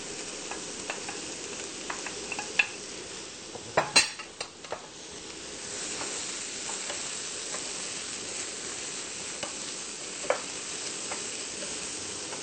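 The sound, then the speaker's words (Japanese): Ham stir-frying in a pan over high heat: a steady bright sizzle runs throughout, with a few sharp clinks and scrapes of a utensil against the pan. “炒まってきましたら次に、ハムを入れます。”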